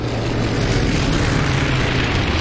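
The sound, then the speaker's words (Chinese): C-47 transport planes roar as they take off towing gliders, some hauling two at once: a dense, steady, loud propeller-engine drone that holds without break throughout. “性能优越的 C-47 运输机牵引滑翔机起飞，有的运输机甚至要牵引两架滑翔机，以至于起飞时显得有些笨重。”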